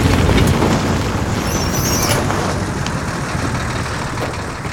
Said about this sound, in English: Keio sits in a small bus rumbling down a road.